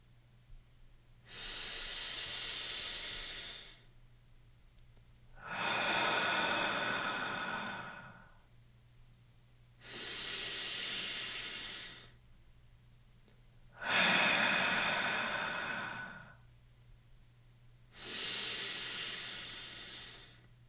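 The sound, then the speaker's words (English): Slow guided breathing during a gentle morning stretch: five long, airy breath sounds alternate between inhales and exhales, each lasting a few seconds and separated by short pauses, soft and alone over a low steady hum. “3 seconds for the inhalation and 3 for the movement of the air out. You can breathe along with me.”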